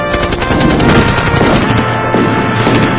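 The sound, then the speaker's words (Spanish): Rapid machine-gun fire in an attack on invading aliens, a dense, loud stream of overlapping shots rattling continuously for about three seconds, with no voices. “¡Ataquen! ¡Fuego!”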